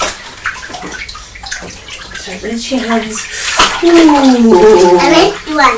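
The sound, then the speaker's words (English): Running water splashes as soapy hands are rinsed at bath time, a steady loud flow with sloshing, under talking voices that include a child's. “Right, soap all done now. Rinse your hands.”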